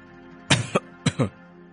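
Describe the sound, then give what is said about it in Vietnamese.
A few soft coughs in two short double bursts about half a second apart, dry and throaty, heard alone against a quiet background. “Viên Đạo thở dài, rồi khẽ ho vài tiếng”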